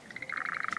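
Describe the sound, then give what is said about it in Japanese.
Frogs croak by a large pond in spring, giving a short, rapid pulsed trill that is faint but clear, with no voices. “カエルの音する。”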